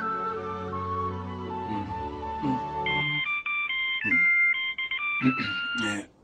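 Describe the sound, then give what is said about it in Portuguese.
An electronic telephone ringtone in a dubbed film scene, a bright melody of short high beeping tones entering partway through after a stretch of other sustained tonal sound. “Telefone, querida.”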